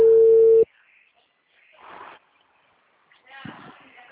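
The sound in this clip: A telephone tone after a dropped call: one loud, steady beep of about half a second, cut off abruptly. Quiet, faint voices follow.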